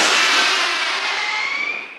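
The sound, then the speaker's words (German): Bird-scaring crackle cartridges go off to drive crows from rookeries in a palace park. A loud, sustained crackling hiss carries a thin whistling tone and lasts about two seconds before tapering off at the end. “Das sind Knatterpatronen, die Vogelschreck heißen die.”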